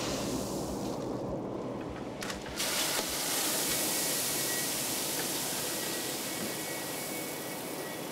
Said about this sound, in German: Hier füllt er gerade Mais nach. Der wird in diesem Mahlgang zu Futter aufgebrochen.